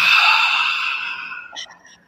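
A deep exhale after holding the breath during a stretching exercise: a long, breathy rush of air that starts strong and gradually fades over about a second, ending in faint, brief breath sounds.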